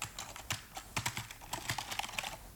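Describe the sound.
Soft, uneven tapping on a computer keyboard as a codeword is entered, with many light keystrokes at an irregular pace, faint and without speech.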